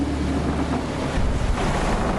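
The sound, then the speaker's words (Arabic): Wind and waves at sea toss a ship about, giving a loud, steady roar of rushing water and gusting wind that continues throughout with no voices. “الرياح والأمواج تتحكمان بالسفينة كأنها ريشة طائر.”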